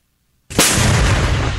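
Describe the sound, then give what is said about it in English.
A Ukrainian tank fires toward Russian positions in the Donbass: a single heavy boom bursts out of silence with a sharp onset and a long, loud rumbling tail. “A Ukrainian tank fires toward Russian positions in the Donbass”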